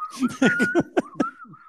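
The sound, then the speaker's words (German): Whistling from a crowd at a rock concert: a high, steady whistle runs throughout, mixed with a string of short voiced bursts like laughter or shouts. “Die fangen an zu pfeifen.”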